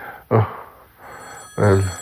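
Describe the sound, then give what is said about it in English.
A telephone rings twice, two fairly loud bursts separated by a pause of a little over a second. “Well, now my phone's ringing.”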